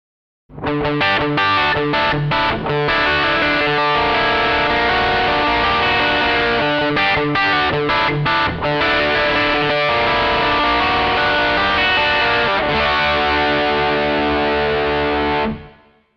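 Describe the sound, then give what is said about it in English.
An electric guitar played through an OS2 overdrive distortion pedal, with thick, buzzing distorted chords strummed continuously. Brief gaps break the playing, and a final chord rings out loud and sustained before cutting off. “OS2 Overdrive Distortion.”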